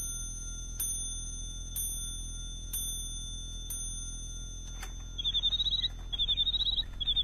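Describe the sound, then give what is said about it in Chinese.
A birdsong clock chimes with four bright ding strikes about a second apart, then breaks into rapid, high, warbling mechanical bird chirps in several quick bursts. “你替我把这座鸟鸣钟送给詹天佑，这是太后赏给我的”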